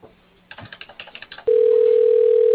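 A telephone line during a call transfer: a quick run of soft clicks, then a loud, steady single-pitched tone that holds without a break, narrow and thin like phone audio.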